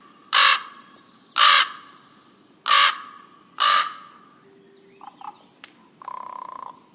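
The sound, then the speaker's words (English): A common raven calls with four loud, harsh croaks, evenly spaced about a second apart, followed by a few fainter, shorter sounds. “You've heard this bird sound hundreds of times when it introduces the show. This is the common raven,”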